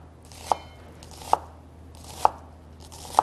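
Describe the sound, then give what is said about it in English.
A knife chopping vegetables with four sharp, evenly spaced strikes under a second apart, each a crisp knock against a quiet background, with no talk. “Cut through the middle one more time. And this is a great way to chop them. Just much faster.”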